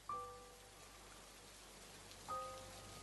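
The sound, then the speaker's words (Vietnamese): Rain falling outside on a porch, a soft, steady hiss of drops at low volume, with two brief tonal pings, one at the start and one near the end. “tiếng mưa đang khẽ vang lên ở bên ngoài hiên nhà. Vội mở cửa nhìn ra, quả nhiên trời đã đổ mưa.”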